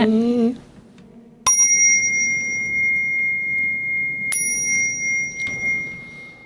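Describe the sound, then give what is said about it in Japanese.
A bell is struck twice, a few seconds apart. Each strike rings out in a bright, high, sustained tone that slowly fades. A brief voice is heard just before the first strike. “ジングルベールジングルベール鐘が鳴るゴーン、そんな和尚の鐘の音”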